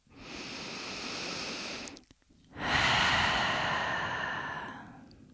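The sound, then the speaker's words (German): Slow, deep breathing during a relaxation exercise: an airy inhale through the nose for about two seconds, a brief pause, then a longer, fuller exhale through an open mouth. The breaths are soft and heard alone. “atme ein durch die Nase, aus durch den geöffneten Mund.”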